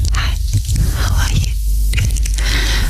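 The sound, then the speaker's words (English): Slow, dry ear-licking mouth sounds in ASMR style: soft squishy smacks and wet clicks come in uneven pulses over a constant hiss, with no talking. “I need the mouth sound. Slow and dry ear licking is how it's described.”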